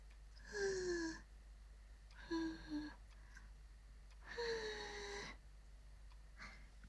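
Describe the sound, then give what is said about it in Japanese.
Soft breathy blowing across a hot drink to cool it: a few long exhaled puffs separated by quiet gaps, each carrying a faint whistling tone that slides slightly downward, followed by a shorter, fainter puff. “あ、熱いから舌をやけどしないようにね。ふうふうしてほしいの？いいよ。”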